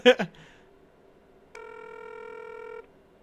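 A telephone being dialed gives a single steady electronic tone lasting just over a second, following a short, sharp burst of sound at the start, with quiet between them.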